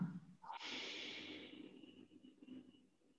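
One long, continuous inhale during a guided breathing exercise. It is a faint, steady airy rush that holds for about two and a half seconds before tapering off, with no speech.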